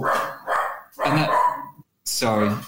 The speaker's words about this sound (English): I thought it was my dog, so I muted myself.